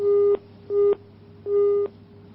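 A busy tone after a phone call is cut off: three steady mid-pitched beeps with even gaps, and a fourth just beginning at the end, clear and alone.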